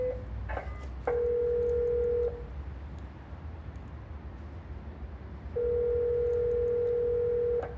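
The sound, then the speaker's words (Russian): A telephone dials to connect a call: a few quick dialing beeps, then two long, steady mid-pitched tones separated by a quiet pause. “Если хотите, я могу соединить сейчас. Соединяем.”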